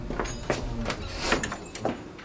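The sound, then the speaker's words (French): A door being shut in a café, heard as a few soft, quiet knocks and thuds spaced across a moment. “Fermez cette porte, mon père.”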